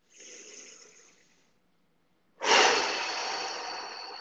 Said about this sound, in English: take a deep breath in through the nose and out through the mouth